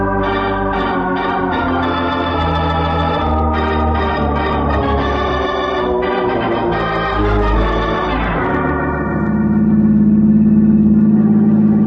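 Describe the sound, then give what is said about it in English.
A taxi cab's engine accelerating: a steady, loud, low rumble takes over in the last few seconds, after a long passage of music. “The cab driver stepped on the gas, and we headed for the police.”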